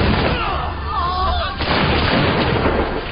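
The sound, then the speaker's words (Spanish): Volley of musket fire from British king's troops shooting at colonists on a battlefield, a loud, dense, continuous crackle and roar of many shots blending together with no clear gaps. “Preparan sus fusiles Broadbeck y disparan contra los colonos.”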